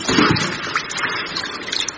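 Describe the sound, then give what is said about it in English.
Water sloshes and splashes as a person gets into a swimming pool, a steady, fairly loud burbling of moving water with no clear pauses. “Watch out for the tidal wave. She's getting in the pool.”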